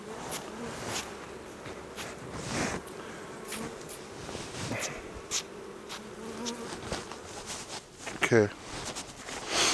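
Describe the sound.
Honey bees buzz around an opened beehive near its inner cover, a dense, continuous droning hum with scattered clicks and knocks from handling.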